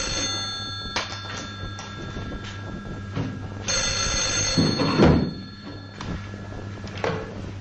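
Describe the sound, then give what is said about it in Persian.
An office telephone rings unanswered, its bell sounding in repeated bursts over a steady low hum. “روزبه تلفن رو جواب نمیده.”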